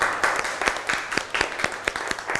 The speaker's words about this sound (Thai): ถูกต้องเลยปรบมือให้เพื่อนหน่อย